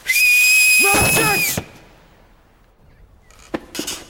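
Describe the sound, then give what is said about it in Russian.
A person whistles one loud, sustained, shrill note for about a second and a half. It cuts off abruptly, and a few fainter scattered noises follow. “Это действительно я свистел. Я только-только научился свистать. Вот так.”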